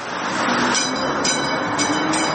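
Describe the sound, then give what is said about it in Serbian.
Rolling rumble of a replica of the first electric tram from 1895, running on the rails of Sarajevo, as a steady, even noise with no voices. “Replika prvog električnog tramvaja iz 1895. godine ponovo je na šinama grada Sarajeva.”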